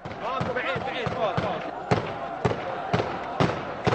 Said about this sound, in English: marched through Fallujah's dusty streets to a nearby cemetery. There is no God but Allah, they chanted, while dozens of men shot off AK-47s into the air.